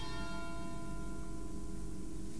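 Bells ring within an acoustic song. Their sustained, shimmering tones sit on top of a dense, steady bed of music at a moderate level.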